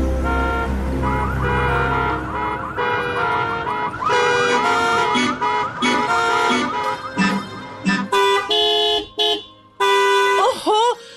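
Car horns honk in traffic as many short beeps repeat and overlap, loud and insistent. Toward the end the honks become choppier, separate blasts.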